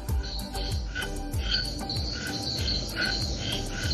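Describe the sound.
A dense night chorus of frogs and insects in a jungle garden by a beach hut in Cahuita, with repeated croaks over steady high trilling and chirping. The sound is loud and continuous throughout, with no talk.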